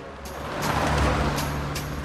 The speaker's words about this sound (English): Cars and trucks pass him as he slowly pedals along the city streets.